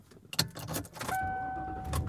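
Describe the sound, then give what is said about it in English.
A car driving on the road, heard from inside as a brief clatter and then a steady low engine and road hum with a faint, even whine. “And I am driving home.”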